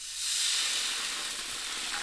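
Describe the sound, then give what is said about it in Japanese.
Sake and oyster sauce sizzle in a frying pan after the excess oil has been wiped out. A soft, steady hiss swells within the first moments, then holds evenly without any voices. “同じフライパンの余分な油を拭き取ってください。じゃあそこに、お酒とオイスターソースを加えます。”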